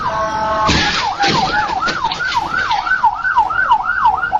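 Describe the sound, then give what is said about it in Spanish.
Ambulance siren of a vehicle rushing to an emergency at full speed, a loud wail sweeping rapidly up and down in pitch over and over, with rumbling road noise beneath. “donde una ambulancia atendía una emergencia a toda velocidad, pero pues su destino cambió de golpe. Las sirenas se escuchaban a la distancia.”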